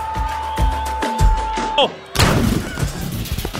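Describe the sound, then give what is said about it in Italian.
A single loud gunshot as a football commentator shoots himself, a sudden sharp blast with a rough decaying tail, following talk and a steady high tone. “Au, s'è sparato il cronista.”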